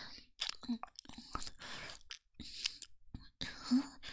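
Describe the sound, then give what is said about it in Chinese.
Close, quiet wet mouth sounds of licking a freshly grilled sausage: short bursts of soft smacks and clicks broken by brief silences. “像是在舔棒棒。人家就是在舔棒棒啊，刚刚做好的这根烤肠可好吃了。”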